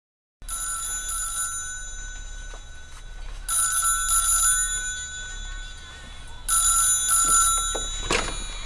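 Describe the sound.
A telephone rings for an incoming call. Steady, bright electronic tones repeat in a few bursts that swell and ease over a constant background, with no speech.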